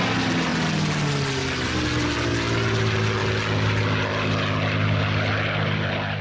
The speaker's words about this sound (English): Sound of a Supermarine Spitfire, the British aircraft that is credited with helping save the UK during the Second World War.